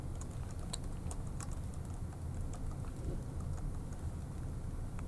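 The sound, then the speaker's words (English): A password is being typed on a computer keyboard: many quiet, irregular key clicks over a steady low hiss, with no voices. “obviously I typed this one in wrong.”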